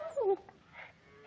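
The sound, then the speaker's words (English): A dog on a cattle ranch lets out a single short, high whine, then only faint low noise follows. “Get out of here. Get out of here. Dang fool dog will have them ticks all over him.”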